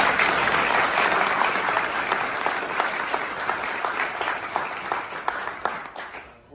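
Audience applause: a crowd clapping in a thick, even patter that gradually thins and fades toward the end.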